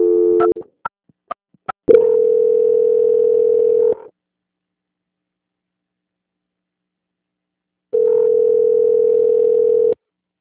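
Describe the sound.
An automated telephone answering system tone sounds on a phone line: a brief tone and a few short clicks, then a loud, steady tone lasting about two seconds, a silence of roughly four seconds, and a second identical long tone.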